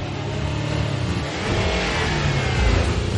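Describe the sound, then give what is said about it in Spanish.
An SUV engine revs hard as the vehicle accelerates during a car chase through traffic, a steady, loud mechanical roar that grows a little stronger midway and stays alone without voices. “el todoterreno frena en seco abre la puerta del conductor y lo echa. Arranca la luna delantera, se sienta y acelera.”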